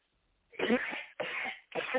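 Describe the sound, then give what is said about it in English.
A preacher coughs three times during a sermon. Each cough is a harsh, raspy burst of about half a second, loud and isolated, with no speech. “that is the devil trying to prevent me from giving this message, because I haven't coughed all day until now.”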